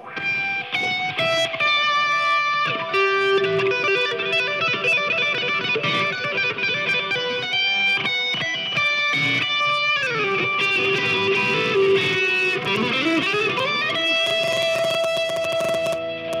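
Electric guitar played through effects, mixing finger-tapped runs, chord fragments and a G major scale. Notes come in quick rhythmic streams with sustained ringing tones and a sliding pitch sweep near the end, loud and steady throughout.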